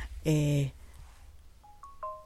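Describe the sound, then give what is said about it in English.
A telephone rings in the background: a sustained steady electronic tone, then a few short, quieter beeping tones, all faint. “I don't know, there's a phone that's going.”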